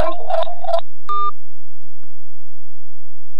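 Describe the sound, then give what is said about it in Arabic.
Electronic telephone line tones sound as a call is cut off: a short cluster of bleeping tones, then a single steady beep, followed by near silence. “نعم، انقطع الاتصال.”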